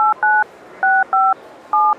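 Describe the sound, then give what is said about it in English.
Five clean two-tone telephone dialing beeps in an uneven rhythm as a phone dials a number on its own after voice dialing, loud and steady against faint background hiss. “Yes, you can say the name or the number, and the phone dials for you.”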